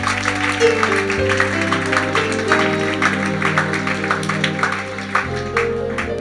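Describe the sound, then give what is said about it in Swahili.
An audience claps during worship at a Swahili healing service, with many brisk hand claps running over sustained keyboard chords that hold and shift underneath. “Sante, mtumishi mmoja wa nyumba hii anapenda kusema hayo ni makofi ya worshipers.”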